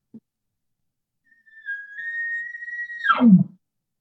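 A short elk bugle imitated by a person blowing through a calling tube: after a tiny click, a clear whistling note rises and holds steady for about a second and a half, then falls abruptly into a brief, rough low grunt.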